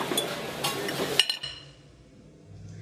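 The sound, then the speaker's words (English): Fork stirring in a coffee shop: a quick run of light metallic clinks and scraping, then the clinking stops and only faint background remains. “stirring with a fork”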